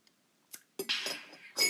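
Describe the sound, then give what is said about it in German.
Slurping sips of a hot lemon drink: a faint clink from the cup, then a breathy, hissing sip, and a second short slurp at the end, with no talk. “deswegen trinke ich gerade auch eine heiße Zitrone.”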